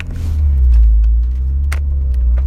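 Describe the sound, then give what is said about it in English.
A car engine runs loudly throughout, a steady deep rumble with a slight swell in the middle and no pauses. “my car is a little bit loud.”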